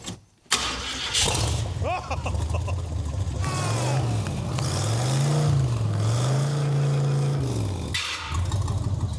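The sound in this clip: A 1990s vehicle's engine cranks briefly and catches, then runs loudly with a few revs that rise and fall in pitch before settling back toward idle.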